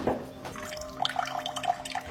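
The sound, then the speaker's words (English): Cold water running from a kitchen tap, its supply carrying sediment, making a faint steady splashing stream with a few bright drips and plinks. “This is my cold water pressure in the kitchen.”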